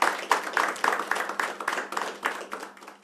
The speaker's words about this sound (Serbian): Meni je izuzetno čast i zadovoljstvo što ćemo večeras po prvi put ugostiti, siguran sam, Balkansku kraljicu zajedno sa svojim bendom koji ćemo počastiti naravno jednim velikim aplauzom.